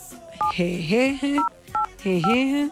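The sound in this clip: Telephone keypad tones sound as a password is keyed into a phone line: a few short dual-tone beeps at irregular gaps, with a voice heard between and around them.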